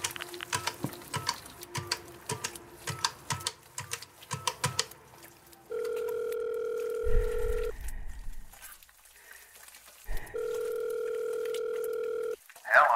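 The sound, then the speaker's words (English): A telephone number is dialed as a quick, uneven run of clicks, followed by two long, steady ringing tones separated by a short pause. “On impulse, he dialed their number.”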